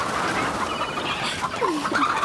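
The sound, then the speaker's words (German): A chicken clucks while being chased, giving a few short, agitated clucks over a steady rustling, noisy background, most clearly in the second half. “Na kommst du wohl her, du dummes Huhn?”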